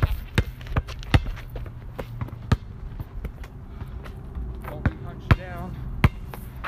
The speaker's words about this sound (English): try not to look down at the ball as much as possible. Don't try to dribble too fast if you're not ready. Stay low, but not too low.